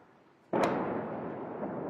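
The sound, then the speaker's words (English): An Israeli bombardment in southern Beirut's suburbs bursts in abruptly after near silence: one loud blast, then a heavy, sustained rumble that eases only slightly. “In southern Beirut today, an Israeli bombardment.”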